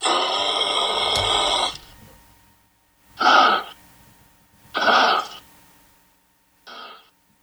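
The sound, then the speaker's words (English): A kangaroo snorts, first in one long, loud, breathy blast, then in three short, forceful snorts separated by pauses. The last snort is quieter than the rest. “That is the sound of a snorting kangaroo.”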